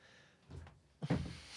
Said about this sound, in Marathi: बाहेर जाऊन राईटला दार लाव